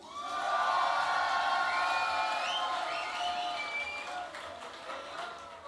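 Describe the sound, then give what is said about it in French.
Festival audience cheering and applauding for the sound engineer after a concert. Clapping and shouts swell quickly to a loud peak, with whoops rising above, then gradually thin and fade. “Au son pour vous, faites du bruit pour Nico!”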